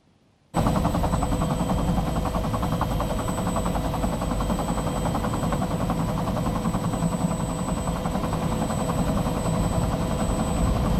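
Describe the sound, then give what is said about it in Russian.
A military helicopter flying over a small town: a dense, rapid rotor chop and engine roar that starts abruptly and holds steady and loud throughout, with no voices. “Над городком пролетает военный вертолет.”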